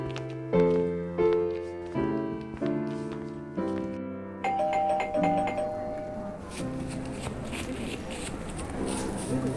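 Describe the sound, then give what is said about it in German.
A front doorbell is rung loudly as a prank: a string of bright, ringing chime tones in quick succession, then a louder, noisier burst toward the end. “Schleich dich langsam heran, klingel dreimal laut, lauf so schnell wie du kannst weg”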